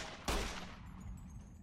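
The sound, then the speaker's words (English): A robot enemy's brain zap attack in a video game lands as a single sharp, faint burst that trails off in a decaying hiss. “He's doing his robo brain zappy attack.”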